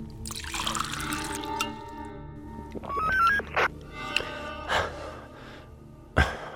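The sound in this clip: Water poured out as a drink is offered, a soft trickling pour at the start, then quieter scattered sounds and breaths over a low background hum.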